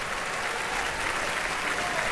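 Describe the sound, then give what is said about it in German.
Vigorous audience applause for a conductor and orchestra at the end of a long evening performance, a thick, uniform wash of many hands clapping at once, loud and unbroken, with no individual claps standing out. “Wieder heftigen Beifall, wie Sie hören, hier in der Felsenreitschule.”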